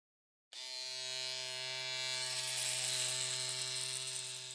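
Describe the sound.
Electric shaver buzzing during a shave: after a short silence it starts abruptly and holds one steady, even, fairly faint electric whine with a constant pitch.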